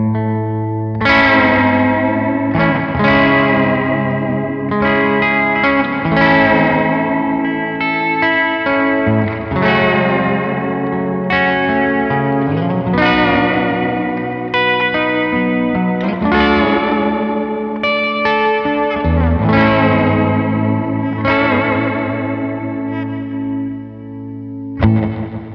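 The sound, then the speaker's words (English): Electric guitar noodles through an ambient reverb pedal: a steady flow of chords and single notes, each washed in long, shimmering trails that overlap and blur together, with no talking. “this thing is like an ambient machine. I really like the trail on it. I really like what it does to your guitar tone. It just makes you sound really nice. Here, I'll just noodle around with it a little bit.”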